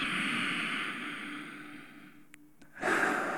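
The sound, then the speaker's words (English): Slow breath drawn in through the nose during a guided breathing exercise: a soft, steady airy hiss lasting a couple of seconds, then a short pause before another breath begins. “So take a moment as you breathe in through your nose”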